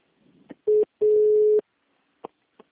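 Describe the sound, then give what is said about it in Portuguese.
A phone call breaking up, with two steady mid-pitched tones, a short one and then a longer one, set among faint clicks and brief crackles, quiet overall. “A ligação está cortando, eu não estou conseguindo ouvir o senhor.”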